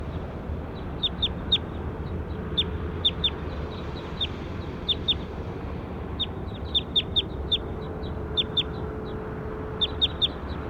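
Short, high, sharp bird calls repeat throughout, often in quick pairs or small clusters separated by brief gaps, over a steady low background hum.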